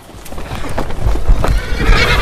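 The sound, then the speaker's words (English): A man rides a galloping horse: rapid, loud hoofbeats mixed with snorting and a whinny, with no talk. “Man on galloping horse.”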